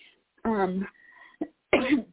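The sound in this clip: Coughing after swallowing something the wrong way: a few harsh coughs and throat-clearing bursts with short quiet gaps between them, loud and alone.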